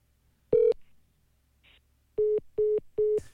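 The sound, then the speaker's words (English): Telephone line tones sound from a voicemail greeting that consists only of a caller hanging up: one clear beep, a quiet pause with a faint click, then a rapid run of evenly spaced, identical beeps. “That's his voicemail. I thought for a while he would just hang up. Okay. Uh, and and uh, his voicemail, the message is just him hanging up.”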